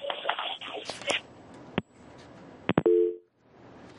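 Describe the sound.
A telephone busy tone follows a caller's disconnection from a phone-in line: muffled talk at first, then several sharp clicks and one short steady dual-pitched tone before it cuts out.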